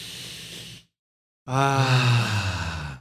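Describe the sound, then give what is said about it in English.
A deep breath: a noisy inhale, a short silence, then a long, loud exhale with a voiced, sighing tone. “So let's just take a deep breath to clear our mind.”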